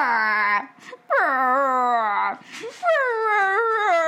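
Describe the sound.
A dog howls outside a door: a few long, wailing howls with a drawn, sliding pitch, each separated by short gaps, loud and alone.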